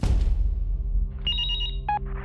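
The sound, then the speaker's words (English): A cell phone ringing with an incoming call: a short electronic ringtone of quick, bright, high-pitched beeping tones over a loud, steady low rumble. “in the midst of putting all this stuff together, Amber gets a call from Scott”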